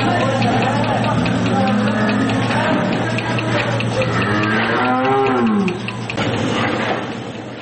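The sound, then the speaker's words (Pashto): Cows moo on a dairy farm in Kandahar's Dand district, where 140 cows are milked by machine. A few long, drawn-out moos rise and fall in pitch over a steady low mechanical hum. “د کندهار د ډنډ ولسوالۍ د غواګانو په دغه فارم کې 140 غواګانې سته چې د پرمختللو ماشینونو په وسیله لوشل کیږي”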